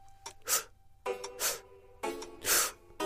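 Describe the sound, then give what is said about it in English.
A person draws a deep breath in three short, sharp increments during a theatre breathing lesson. The quick breathy sniffs come in clustered bursts with short pauses between, fairly quiet and with no talk over them. “We begin by inhaling a deep breath, but... in three short increments, like so.”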